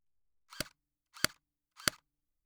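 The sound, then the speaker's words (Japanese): Three sharp, evenly spaced pops of an air gun being fired at a person. Each is a brief, crisp snap, quiet and alone with silence between shots. “私もエアガン人に向けて撃つの初めてだからさ。”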